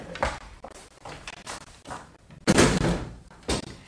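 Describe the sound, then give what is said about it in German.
Classroom windows are shut in a series of thuds and bangs of uneven loudness. One sharp knock comes early, then softer bumps, then a loud heavy slam and one more bang near the end. “Bitte schließen Sie die Fenster.”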